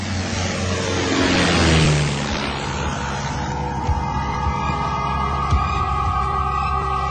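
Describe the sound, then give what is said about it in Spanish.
A squadron of five warplanes flies overhead with a loud, continuous, rumbling engine drone that swells early on and then settles into a steady, humming roar. “¡Shh! ¡Escuchen! ¡Escuchen! ¡Parecen aviones! ¡Son aviones!”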